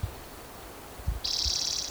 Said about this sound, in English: I think that's a yellow warbler singing.